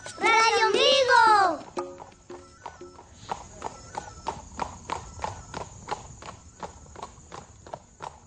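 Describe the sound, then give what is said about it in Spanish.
A horse trots with many crisp clip-clop hoofbeats in a steady, even rhythm, after a brief loud high-pitched call at the start. “Montada sobre un trotador caballito. Caballito blanco. Radio Ombligo. Uy, espérate, caballito, no trotes tanto.”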